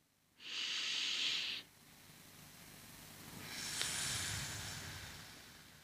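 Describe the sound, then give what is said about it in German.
A breath in, then a slow exhale through a drinking straw: two soft, airy hisses, with the second longer and steadier as the air is pushed out against the straw's resistance. “Da hast du automatisch eine Verzögerung im Ausatmen. Und das erzeugt eben, wie gesagt, diesen leichten Druck. Ich atme nochmals ein.”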